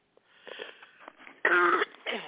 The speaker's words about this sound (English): I'm still got this cough. I apologize. I really do apologize.